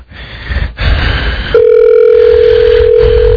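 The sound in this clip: Telephone dial tone on a line being dialed to call into a show: rough line noise first, then a steady, unbroken mid-pitched tone that holds to the end.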